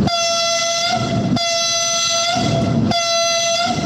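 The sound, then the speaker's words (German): Locomotive horn blaring as a train arrives: a loud, steady multi-tone chord in a few long blasts, with short breaks between them, over continuous low rumbling from the train. “Die bewegt mit Banausen Bahn fährt ein. Tschu-tschu.”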